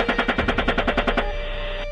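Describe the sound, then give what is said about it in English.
Automatic gunfire rakes a disabled van in a rapid, evenly spaced burst of loud shots, then breaks off into a lingering ringing tone that fades away. “And they're still, even though they just said that the van's disabled, they're still firing on it.”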